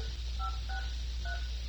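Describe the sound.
Three short, steady electronic beeps of telephone keypad tones sound one after another while a call is dialed, each tone clear and distinct over a faint low hum.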